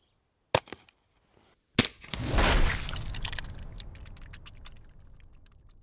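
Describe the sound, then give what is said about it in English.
A 40-grain Winchester Super X round is fired, giving sharp, isolated cracks: one early and a second a little over a second later. A loud, broad rushing noise then swells and slowly fades over the remaining seconds. “We're gonna do a gut shot. We have a 40 grain Winchester Super X. We'll give it a shot.”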